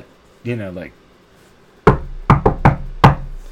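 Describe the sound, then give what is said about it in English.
Knocking on a door: five sharp, hard raps in an uneven rhythm, loud and clear. A brief voiced sound comes just before them. “knocking on the door like,”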